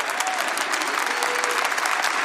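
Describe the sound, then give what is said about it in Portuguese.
A church audience applauds in a dense, steady wash of many hands clapping that holds at an even level throughout. “Então já vai ficando de pé e já vai aplaudindo esse Deus maravilhoso. Aplaude, aplaude, aplaude, aplaude.”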